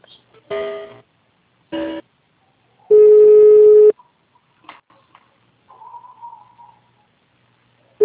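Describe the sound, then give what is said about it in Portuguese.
Phone line tones as a call is transferred: two short electronic bursts, then a single steady tone lasting about a second, followed by faint clicks and a brief warbling sound. “Só um momento, eu vou passar a ligação, tá?”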